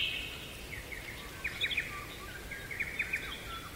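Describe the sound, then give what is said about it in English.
Song of a pied butcherbird: faint, clear, melodious whistled notes in two short rapid phrases separated by a pause, over a soft hiss. “Here is the song of the pied butcher bird. And this is probably the bird from around the world that most sounds like human music.”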